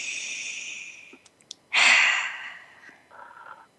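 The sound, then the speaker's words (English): A deep breath: a slow, airy inhale, a short pause with a few faint clicks, then a louder sighing exhale that fades out, with a soft trailing breath at the end and no talking. “One more deep breath.”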